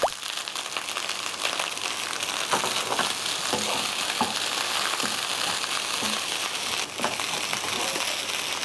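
Egg fried rice with sliced spring onions stir-frying in a pan, a steady loud sizzle broken by many scraping, clattering stirs of the spatula.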